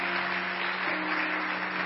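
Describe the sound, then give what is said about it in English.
Audience clapping in a church, a dense, steady wash of applause that holds at an even level for the whole stretch, with no voices over it. “Give God praise. Give him a clap unto the Lord if you're going to clap.”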